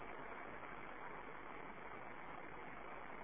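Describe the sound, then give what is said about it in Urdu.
An electric fan runs with a steady, even whir and a faint rhythmic low throb underneath, continuous and unchanging throughout with no other sounds. “ارے میاں دیکھو جاؤ یار یہ پنکھا چلاؤ, یہ کیوں کس نے بند کیا؟ جب پتا ہے کہ ہمیشہ چلتا ہے کس نے بند کیا؟”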